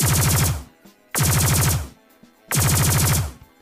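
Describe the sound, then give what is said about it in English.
Rapid automatic gunfire, a sound effect of incoming fire: three loud, dense bursts separated by brief pauses, with no voices. “The incoming fire intensifies.”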